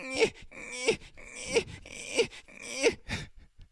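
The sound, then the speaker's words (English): A man's voice imitates football quarterback Eli Manning whining and crying, with five drawn-out, wavering moaning wails in a regular rhythm, each swelling and fading, followed by a short trailing whimper. “Play the clip. He starts whining and crying.”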